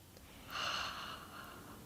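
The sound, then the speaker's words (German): Soft breathing during a guided breathing exercise, drawing air in through the nose and letting it out through the open mouth; one quiet, airy rush swells and then fades, with no talking. “Wir atmen ein durch die Nase am besten, genau. Und ausatmen durch den offenen Mund.”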